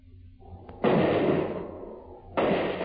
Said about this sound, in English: That's good shooting.